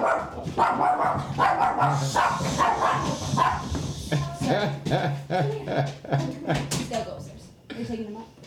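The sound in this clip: Dogs barking: many short, sharp barks and yips come in bursts, mixed in with people talking throughout.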